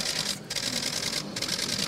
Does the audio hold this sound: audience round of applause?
no

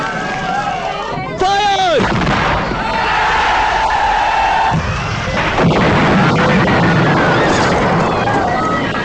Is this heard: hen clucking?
no

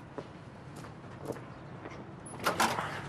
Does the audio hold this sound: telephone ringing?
no

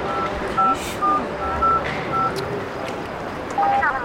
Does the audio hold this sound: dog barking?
no

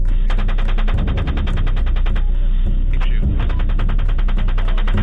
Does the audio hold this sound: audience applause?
no

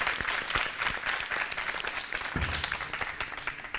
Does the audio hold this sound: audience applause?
yes

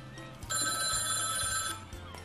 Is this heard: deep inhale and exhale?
no

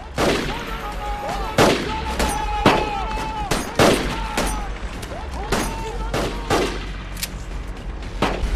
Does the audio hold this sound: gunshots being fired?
yes

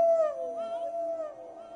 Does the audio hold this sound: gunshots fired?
no

